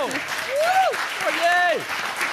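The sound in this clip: Studio audience applause at a live show, a steady wash of clapping under voices talking over it.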